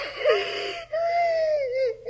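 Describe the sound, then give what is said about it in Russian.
A girl cries and wails after losing her new blue flowered dress. Two drawn-out, quavering sobbing cries are separated by a brief catch of breath, and the pitch wavers up and down. “Не плачь, не плачь. Может, найдется.”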